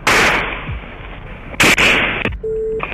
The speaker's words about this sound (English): We have shots fired out here.